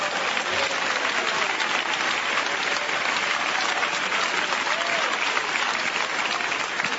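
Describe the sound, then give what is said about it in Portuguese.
A church audience claps together in sustained, dense applause that holds at an even level for several seconds, with faint voices mixed into the crowd noise. “Podem bater palmas para Jesus.”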